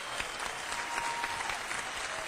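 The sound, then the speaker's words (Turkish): An audience breaks into applause as a singer is welcomed onstage at a music program: dense, steady clapping from a crowd at an even, moderate level for the whole short stretch. “Kendisini alkışlarınızla davet ediyorum.”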